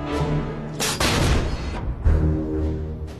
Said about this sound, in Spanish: La artillería estadounidense responde disparando desde una de sus piezas de artillería.